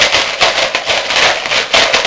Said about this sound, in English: Then they all heard crunchy footsteps